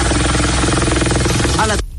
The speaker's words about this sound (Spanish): El helicóptero se precipita hacia el agua. El video dura muy poco, dura escasos 12 segundos. Ahí se ve el helicóptero. Va bajando, bajando, bajando, bajando, tratando de acuacitar.